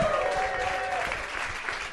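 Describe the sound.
Steady audience applause with some cheering greets a comedian coming on stage at a live comedy show in Manchester, a short, dense burst of clapping at an even level.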